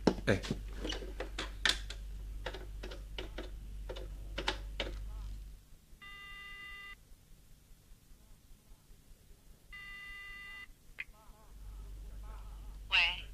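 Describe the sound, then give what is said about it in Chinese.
A telephone call home is placed, with quick tapping clicks followed by two long, buzzing ringing tones separated by a quiet pause. “这样吧，我打个电话回去问问。”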